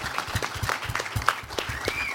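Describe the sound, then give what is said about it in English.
Light applause from an audience at a talk, with individual claps standing out in a loose, uneven patter, quiet and fairly sparse. “Yeah, we have applause too.”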